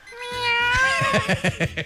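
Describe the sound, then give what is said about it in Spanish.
A cat meows: a long, drawn-out harmonic meow is followed by a few short, rapid meows, loud and alone with no voices. “¿cómo maulla el gato? Que sonaba ahí así como Lolita.”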